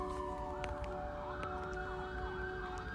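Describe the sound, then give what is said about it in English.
An ambulance siren passing by outside, heard as a faint wailing tone over a steady low traffic rumble. “I don't know if you guys can hear that, but the ambulance is going by, so things are happening.”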